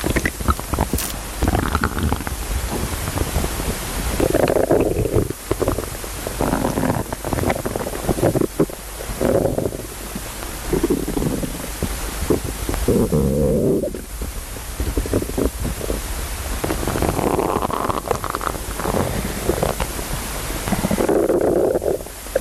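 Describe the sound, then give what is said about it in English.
A person's stomach rumbles and gurgles: a continuous rough, noisy churning runs through the whole clip, broken by several louder low gurgling swells, with no talking. “We're about to hear the sound of my stomach.”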